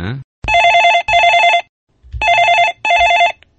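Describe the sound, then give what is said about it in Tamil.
A telephone rings with an incoming call: four loud, bright electronic ring bursts fall in two pairs, split by a short pause, with no talk over them. “அதுக்குள்ளயோ இங்க ஒரு அழைப்பு வந்துருச்சு. இன்றைக்கு எனக்கு நிறைய அழைப்பு வந்துட்டு இருக்கு”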